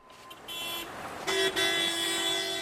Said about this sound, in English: We're driving through the center of Mogadishu here, not that far from the front lines.